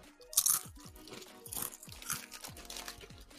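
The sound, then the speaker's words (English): Lay's yogurt and herb potato chips crunching as they are bitten and chewed: many crisp, brittle crackles in quick, uneven succession, with no talking. “Okay, so this is the Lay's yogurt and herb.”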